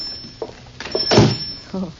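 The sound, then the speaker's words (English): A door is opened with a single dull thunk, set among brief fragments of voices and low background noise. “Me open door”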